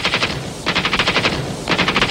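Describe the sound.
Machine gun fire during a raid on a hospital: three loud bursts of rapid, evenly spaced shots, each a sustained crackling rattle with short gaps between them.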